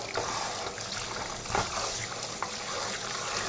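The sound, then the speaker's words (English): Water runs over three carrots as they are rinsed, a steady hissing flow broken by a few brief louder splashes, with no talk. “I've got 3 carrots, giving them a rinse.”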